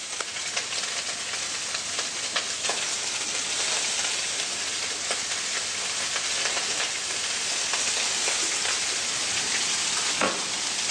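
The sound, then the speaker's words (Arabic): Cuttlefish cooking over a fire gives a steady, dense sizzle and hiss with scattered crackles and pops throughout, at an even loudness. “انا عندي السبيط على النار اهوت، شايف الريحه جميله، ريحه اليود بتاعت السبيط وميه البحر.”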